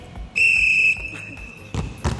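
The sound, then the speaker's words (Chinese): A basketball is dribbled in a moving drill, a few low, thumping bounces with voices in the background and a high, steady tone sounding early on. “我们就做行进间的运球，我们试试看啊。”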